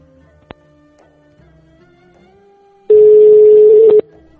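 A steady, loud, single-pitched telephone tone sounds for about a second after a group conference call hangs up, preceded by a quiet background hum and a faint click.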